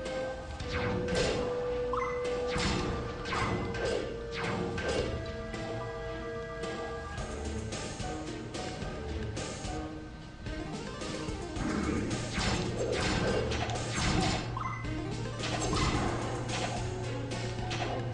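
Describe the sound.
A Zelda video game dungeon's trap slams shut and arrows fire, making sharp crashing and whacking hits that repeat over continuous game music with a sustained low tone.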